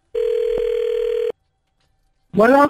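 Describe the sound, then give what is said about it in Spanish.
A telephone sounds while a number is dialed, producing one steady, loud tone with a small click partway through. The tone stops, there is a short silence, and then a voice briefly speaks. “Ahí le estamos marcando, mi vida, aquí al número que nos diste.”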